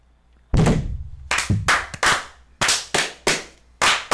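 A series of sharp thumps from a Masonic 'fire' toast ritual, the brethren striking together. The knocks come loosely in rhythm, loud and punchy, each decaying quickly, with no talk over them.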